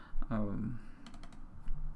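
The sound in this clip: Typing code in a JavaScript file on a computer keyboard, a quick burst of several crisp key clicks after a brief voice, then a last tap or two.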